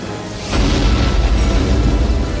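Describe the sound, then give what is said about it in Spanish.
A missile launch explosion effect in a dramatized military scene; after a brief quiet lead-in, a loud, deep rumbling roar kicks in abruptly and holds steady to the end. “Señor, ya han disparado todos los misiles.”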